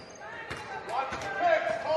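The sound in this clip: A basketball dribbled on the court during a game: several sharp bounces at a steady rhythm under a commentator's talk.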